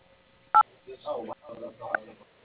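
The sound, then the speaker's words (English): Telephone keypad tones while spelling a name in an automated company directory: one short, sharp dual-tone beep, then talk follows. “Using the dial pad buttons, please spell the first name of the person. For the letter Q, press 7. For Z, press 9.”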